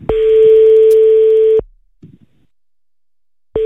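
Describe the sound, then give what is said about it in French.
Telephone ringback tones sound during an outgoing call: a loud, steady tone lasts about a second and a half, then a pause with a faint brief sound, and the same tone starts again. “On y va, on l'appelle tout de suite, là.”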